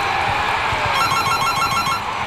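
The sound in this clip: A telephone rings with a rapid electronic trill. A single burst of about a second of quick repeated beeps sounds fairly faint over steady background noise.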